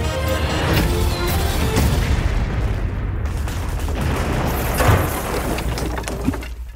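A rumbling explosion and crackling blasts mark a battleship being sunk during a comedic battleship game, a loud, sustained roar dotted with sharper bursts throughout.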